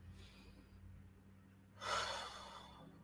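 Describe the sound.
A single soft breath during a spoken guided spiritual session, a faint breathy rush of air that swells and fades once over a low, steady hum.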